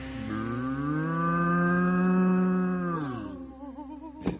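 A single long cow moo, a full, low, steady tone held for about three seconds before its pitch sags downward, followed by a short wavering tail and one sharp click near the end.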